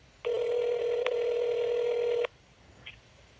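A ringback tone on an outgoing telephone call: one steady, loud ring lasting about two seconds, then near silence.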